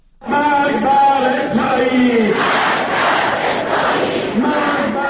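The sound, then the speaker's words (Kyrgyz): Crowds of demonstrators chant slogans against Israel at a Quds Day rally in Tehran. Voices join in a loud, sustained roar with rhythmic surges, and distinct chanted tones stand out early before the sound thickens into a broader crowd din. “Израилге өлүм деп кыйкырып жатышты Тегерандагы демонстранттар.”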